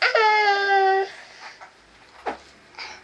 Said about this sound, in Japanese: 泣き虫。泣くなよ。